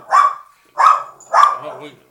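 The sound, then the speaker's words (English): A dog barks outside: three sharp, loud barks spaced evenly, separated by short silences, with a quieter tail after the last one. “there's a dog barking outside and our dog heard him.”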